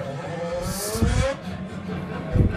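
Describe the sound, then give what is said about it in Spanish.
A car engine revs as the accelerator is pressed hard, giving a steady, droning hum with a brief hiss and a few low thumps. “estoy aquí junto a ti, güey, y me le pones el acelerador. Le pisas el acelerador mucho.”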